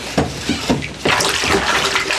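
Oars dip into the water as a small boat is rowed: a few splashing strokes, then a steady churning rush of water, fairly loud, with no voices.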